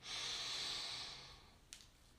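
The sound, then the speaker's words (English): A long, deep inhalation during a guided breathing exercise makes a breathy hiss that swells, holds, then fades over about a second and a half, followed by a brief faint click. “let's take a deep breath in.”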